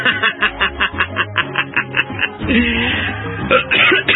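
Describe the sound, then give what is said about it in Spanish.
Coughing from one person: a rapid series of many short, harsh coughs in a regular rhythm, followed by a rougher, denser stretch and a few more loud bursts near the end. “Ay, la tos.”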